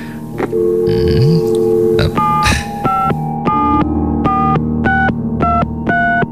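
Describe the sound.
A telephone being dialed: a quick run of short electronic beeps at shifting pitches, loud over a steady low hum that runs through the whole passage.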